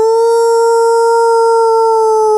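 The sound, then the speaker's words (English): A voice imitates a werewolf howl, one loud, sustained, steady-pitched wail held for the whole clip. “Did a really good howl impression.”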